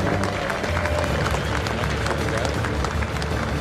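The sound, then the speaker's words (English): Crowd applause and cheering for the Summernats 33 Grand Champion, a dense, steady roar of clapping and voices that holds at an even, loud level throughout. “Summonats, let's make some noise once again. Let's show your appreciation for our Summonats 33 Grand Champion.”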